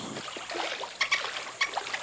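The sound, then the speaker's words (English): Faint water sloshing from an early morning swim, with a few small, sharp splashes standing out over a soft, steady wash. “An early morning swim before Dad gets up.”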